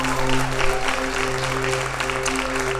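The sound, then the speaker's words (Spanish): Loud, steady applause for a woman at a church service, continuous clapping that holds an even level from start to finish. “yo quiero que démele un fuerte aplauso a esta mujer”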